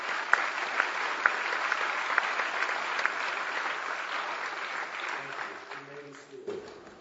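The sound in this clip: Church audience applauds to welcome a new RUF campus minister at UCF and his wife: sustained, even clapping from many hands runs for several seconds, then thins and fades as a voice begins.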